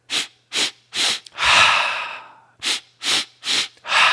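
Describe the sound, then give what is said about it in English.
Yoga breath-of-joy breathing: three quick, sharp inhales followed by one long, whooshing exhale, then the same three quick inhales again and the start of another big breath, with no talking. “in yoga, this is called the breath of fire or the breath of joy. Just three quick inhales and then a big exhale release.”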